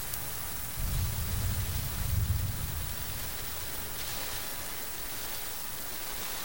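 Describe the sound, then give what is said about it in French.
Steady rain falls with a soft, even hiss throughout, fairly faint, and a low rumble swells briefly near the start before fading back into the constant patter. “La pluie.”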